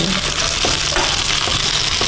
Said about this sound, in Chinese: 大火，然后再把咱们煎制好的鸡肉和猴头菇都可以下入了啊